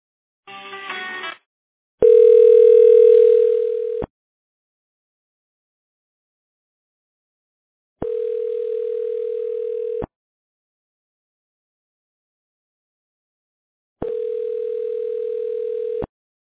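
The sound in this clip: Telephone ringback tone heard while a call is transferred to a Mitel voicemail system: a short warbling burst, then three steady, even tones of about two seconds each, separated by long silences.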